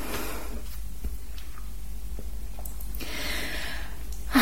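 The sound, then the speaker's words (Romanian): A person crying softly, heard as sniffles and shaky, gasping breaths over a low steady background hum, with a slightly louder breath at the very end. “acum plâng un pic așa, cer scuze.”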